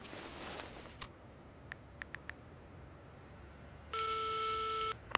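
Telephone tones on an outgoing call, heard quietly: a click, then four short beeps, followed later by one sustained ringing tone lasting about a second.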